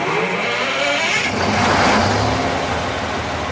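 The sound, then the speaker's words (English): A rented generator the size of a semi-trailer starts up behind a nursing home in DeLand: a loud, dense engine roar that runs steadily throughout, swelling slightly midway. “Okay, flip the switch to manual. Out back behind the DeLand nursing home, one of the directors fires up a generator the size of a semi-trailer.”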